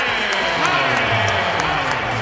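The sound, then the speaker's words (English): A basketball crowd in a Houston arena roars and applauds as a returning former player is introduced, a thick, steady wash of cheering and clapping that stays loud throughout. “Now, more cheers than boos is the way it sounded there.”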